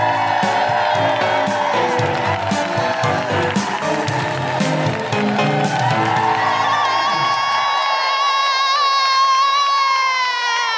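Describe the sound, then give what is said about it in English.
Audience at a live comedy show cheering and whooping as a comedian takes the stage, a loud sustained roar of shouts and claps with high, wavering whoops and whistles rising above it toward the end. “Put your hands together and make incredible woohooing noises for the wonderful Sophie Chuka!”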